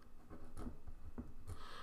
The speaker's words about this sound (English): So let me write that down so I can remember the age of the account.